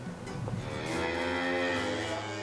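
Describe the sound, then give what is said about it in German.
Beef cattle, bulls and heifers, on a farm on Amrum being moved out to summer pasture. One long, low, drawn-out moo rises from a quiet background and carries to the end. “Heute kommen die Rinder auf die Sommerweiden.”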